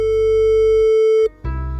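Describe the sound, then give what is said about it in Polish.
Telephone ringback tone on an outgoing call: one long, steady, mid-pitched beep lasting over a second, then a sudden break before another sound starts. “Uwaga, uwaga, dzwonię.”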